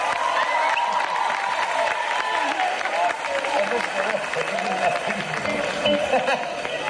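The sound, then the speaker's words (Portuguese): Audience applause and cheering for a young man called up to play a harmonica at a live Portuguese morning event, a dense, steady roar of clapping with whoops and chatter throughout. “Uma salvinha de palmas para ele. Vai lá.”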